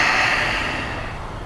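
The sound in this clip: A soft but forceful exhale through the mouth during a kriya yoga breathing exercise, a single breathy rush of air that starts strong and gradually fades away.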